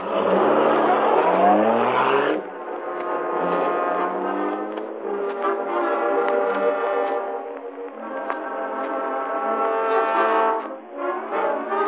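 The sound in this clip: The Black Beauty car drives off with a loud engine roar that swells at first, then settles into a sustained, humming drone with shifting tones lasting several seconds.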